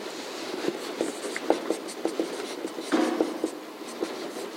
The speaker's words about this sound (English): I don't know how to spell elegance, so I'm just going to keep writing.